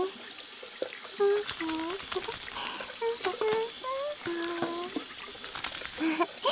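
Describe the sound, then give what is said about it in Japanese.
Water trickling from a tap as hands are wetted before washing with soap, a steady splashing flow with a voice speaking over it. “僕はこうやって手を水で濡らして、そしたら石鹸で手を泡泡に。”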